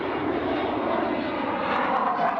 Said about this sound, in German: Heute ist eine Tiefflugausbildung. Wir fliegen halt Tiefflug über See und Tiefflug über Land.